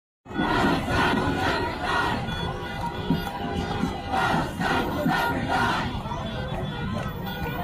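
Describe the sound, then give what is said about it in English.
A protest crowd of thousands waving Palestinian flags in the streets of Dearborn, Michigan, with loud, sustained massed shouting and chanting that swells and dips without a break. “It's thousands of people on the streets of Dearborn with Palestinian flags. Thousands. So that's Dearborn, Michigan.”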